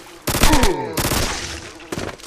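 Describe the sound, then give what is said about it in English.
Burst-fire gunshots from a weapon in a video game: three loud bursts of rapid shots, each a quick cluster of sharp cracks, separated by brief pauses. “Put this on burst fire by pressing T. Listen to this.”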